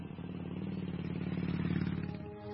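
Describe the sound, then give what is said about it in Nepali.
A motorbike engine starting off, giving a faint, low, steady putter that swells slightly in the middle and eases near the end, with no talk. “जाम हिँड, बरु मेरो बाइकमा गएर आइहालौँ।”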